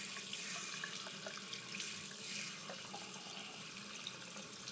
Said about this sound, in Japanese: お湯は熱くないかな。